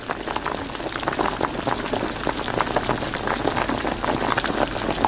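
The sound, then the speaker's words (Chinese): Pork slices frying in rendered lard over high heat, producing a dense, steady sizzle with fine bubbling crackles throughout and no voices. “猛火不停翻炒半个小时左右，肉片逐渐被澄清透亮的猪油慢慢浸没。”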